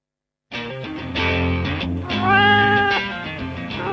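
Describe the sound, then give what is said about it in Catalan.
A cat meows in long, loud, wavering cries that start after a brief silence and run on almost without break, the pitch bending up and down. “Què és això? Aquest és el gat que va enxampar la garsa”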